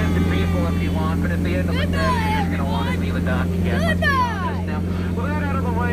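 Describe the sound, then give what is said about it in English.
A Disney theme park ride boat moves on the water with a low, steady engine hum under excited talking voices. “Let's take a ride out of Disney Park. Let's take a ride right now.”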